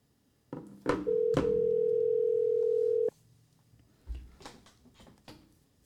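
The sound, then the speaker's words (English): A steady telephone dial tone holds a single unbroken pitch for about two seconds while a call is placed. Sharp clicks mark its start and end, and faint handling noises follow. “let me go into calling Nico. Let's see. Okay, here we go.”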